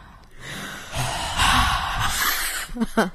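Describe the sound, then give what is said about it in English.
Audible breathing close into a microphone, a long breathy rush of air that swells and holds, followed by a few short snorting breaths at the end. “Breathe so audibly in the microphone.”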